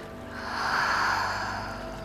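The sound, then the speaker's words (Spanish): A deep breath drawn in and let out during a guided therapy session: one soft, airy swell of breath that rises and then fades, quiet and unaccompanied by talk. “Inhala profundo y exhala.”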